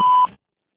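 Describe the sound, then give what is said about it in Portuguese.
A single short, steady, mid-pitched voicemail beep sounds after an answering machine greeting, then cuts off into silence. “deixe sua mensagem após o sinal.”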